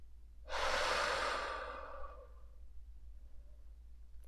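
A single slow, airy breath during a guided meditation starts strong, then tapers gradually into quiet stillness.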